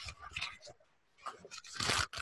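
Tearing of a large folded package as it is opened, heard as a few rough, crackling bursts. A short quiet gap comes near the middle, and the loudest tearing falls toward the end.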